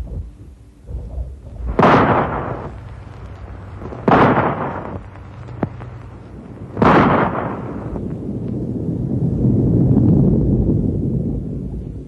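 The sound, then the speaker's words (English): Rifle shots echo across snowy mountains during a survey: three sharp, loud cracks a few seconds apart, each trailing off in a long rolling decay, with a low rumble swelling afterward. “Say, you just gave me an idea, pal. Rifle shot? Right. Now watch.”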